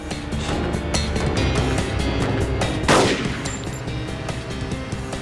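Gunshots fired by a fleeing suspect near an industrial area: many sharp cracks at uneven intervals, one louder blast near the middle, over a constant background roar.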